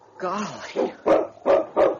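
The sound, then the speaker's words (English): A dog barks outside a trading post door on a town street: a brief whining sound, then four short, punchy barks in a quick, uneven rhythm. “Standing just outside the trading post door was the most magnificent dog Peter had ever seen. The dog returned Peter's interest.”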